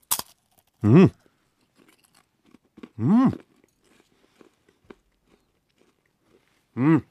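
Biting and chewing ruby chocolate, pink with a slightly rough, matte surface: a crisp snap at the start, then a few short hummed vocal sounds separated by quiet stretches.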